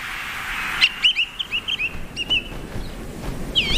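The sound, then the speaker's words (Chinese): A male bird's loud territorial call, a rapid series of high, clear chirping notes in an uneven rhythm, followed by a further call near the end. “雄性以响亮的叫声宣示领地，他的声音从很远的地方都能听到。”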